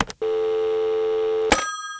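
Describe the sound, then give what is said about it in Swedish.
Ringback tone of an outgoing telephone call: a single steady, even-pitched ring lasting over a second, followed by a sharp click and a brief higher beep. “ska vi ringa henne eller?”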